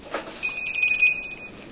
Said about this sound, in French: Merci, il a fait clochette.